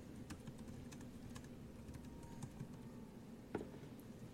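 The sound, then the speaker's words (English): Typing on a computer keyboard, a quiet, irregular run of soft key clicks over a low steady hum, with one slightly sharper clack near the end and no talk. “he's supposed to be typing. He's typing.”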